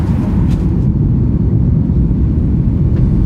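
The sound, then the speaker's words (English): Steady, loud low-pitched rumble of an airplane taxiing at Los Angeles airport after landing, constant throughout with a few faint brief clicks. “I'd like to welcome you to Los Angeles. It's 11:35 a.m. We'll be taxiing. We just get here in LAX.”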